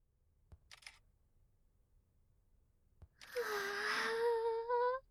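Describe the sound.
Camera shutter clicks as many photos are taken: two faint, isolated clicks with a brief rattle between them, then a louder sustained harmonic whine lasting nearly two seconds.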